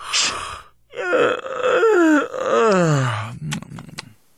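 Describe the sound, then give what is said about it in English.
A man yawns: a sharp breathy intake gives way to a long, voiced, groaning yawn whose pitch wavers and then slides downward, ending in a few short breathy puffs. “he's just yawning.”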